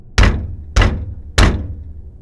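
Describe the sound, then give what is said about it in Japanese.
Knocking on a door: three heavy, deep thumps, evenly spaced about half a second apart, each fading quickly, with no talk. “じゃあもう一回ノックするのだ。”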